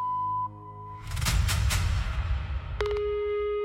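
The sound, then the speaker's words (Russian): An answering machine beeps with a steady, lower electronic tone that comes in near the end. Before it, a short high tone is followed by a burst of rough rustling noise. “Оставьте сообщение после звукового сигнала.”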